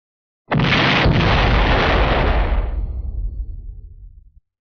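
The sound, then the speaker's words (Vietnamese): A loud explosion as a silver vortex bursts apart: a sudden, full-bodied blast that holds steady for a couple of seconds, then thins into a crackling, decaying low rumble that cuts off. “sau lưng liền có một tiếng vang thật lớn truyền đến.”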